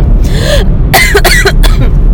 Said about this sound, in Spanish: es como cuando se les va la salivita por otra parte. Así me pasó.